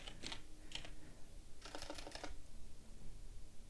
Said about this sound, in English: What do I look up? Type in Gambit.